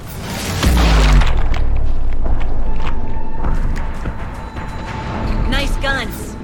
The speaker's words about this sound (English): The autocannons! Oh, this is good. This is like some Warhammer 40k shit. They're just getting blasted to pieces.